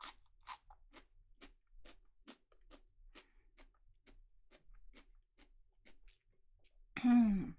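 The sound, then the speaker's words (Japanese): Crisp crunching and chewing of a fresh cucumber: one sharp bite, then many evenly spaced, crunchy chews at a steady rhythm, ending with a brief voiced murmur. “このきゅうりを先輩にも食べてほしいなって思って持ってきちゃいました。じゃあそれじゃあ食べましょうかね。”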